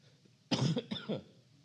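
Two quick, sharp coughs caused by a tickle in the throat, the first slightly longer and louder, followed by quiet.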